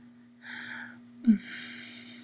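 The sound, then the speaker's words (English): A deep breath, faint and unhurried: a soft breathy rush, a brief low thump, then a longer airy breath, all over a steady low hum. “Let's stop for a second. Take a deep breath.”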